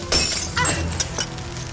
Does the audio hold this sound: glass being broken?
yes